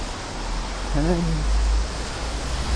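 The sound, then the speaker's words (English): Hurricane wind and rain form a loud, steady rushing roar that fills the whole stretch, with a brief voice rising out of the noise near the middle. “It's a fucking hurricane. Oh, I'm wet.”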